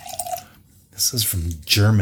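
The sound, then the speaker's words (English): Wine from Germany poured from a bottle, a brief soft liquid trickle at the start before a voice speaks over the rest. “And I'm going to pour this.”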